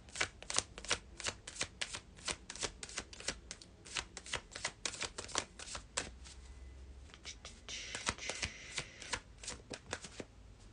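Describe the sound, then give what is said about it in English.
Playing cards being shuffled: many quick, crisp riffling snaps in a fast, irregular rhythm, fairly quiet, easing into a softer, smoother stretch of rustling with a hissy flutter before a few final snaps. “And let's see if we have any cards here.”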